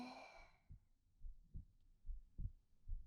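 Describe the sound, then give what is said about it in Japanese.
A faint, low heartbeat thumps in a steady rhythm, quickened after slight movement. A soft voice fades out at the very start. “少し動いたので心拍数が上がってしまいました。自分の心臓の鼓動、聞こえますか？”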